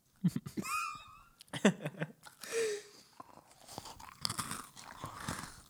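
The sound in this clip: Close-miked eating and chewing, many irregular crunches and wet bites, with a few short voiced hums and squeaky tones mixed in.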